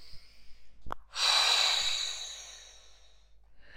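Slow, deep breathing during a relaxation exercise: one long, breathy exhale swells and then gradually fades. A soft click comes just before it, and a faint new breath begins at the very end.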